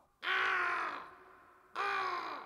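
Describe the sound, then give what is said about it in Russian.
A black raven perched on a branch gives two long, harsh, hoarse caws. Each call lasts over a second and is loud and clear, with a short pause between them and no other sounds. “кроме черного ворона, который сидит на ветке, все видит и все слышит”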